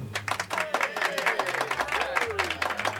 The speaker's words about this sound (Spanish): yo creo que te voy a dar un aplauso desde aquí, ¿eh?